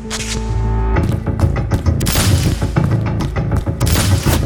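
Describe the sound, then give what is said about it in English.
Gunshots in a dramatized shootout: many loud, booming bangs in rapid, irregular bursts, with deep low rumbling under the sharp cracks and no voices over them. “The first bullet hits me in the chest, sends me staggering back a step.”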